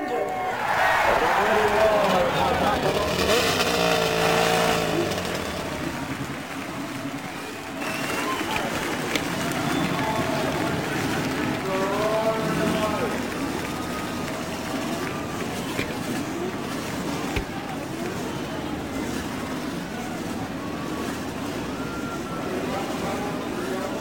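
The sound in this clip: Race car engines starting and roaring at the Indianapolis Motor Speedway, a loud, dense mass of engine noise with revs surging and falling, under crowd noise and voices throughout.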